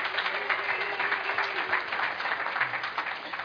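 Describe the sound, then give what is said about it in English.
An audience applauds Sunday School children, many hands clapping in a dense, even patter that holds steady from start to finish. “let's hear it for our Brink kids. Aren't they great?”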